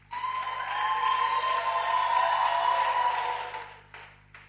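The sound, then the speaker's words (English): Applause from an audience at a church prayer gathering, a steady patter of clapping hands lasting about four seconds before it thins and dies away, with a few last scattered claps. “Put your hands together for Jesus. Let's also welcome our sister Deborah.”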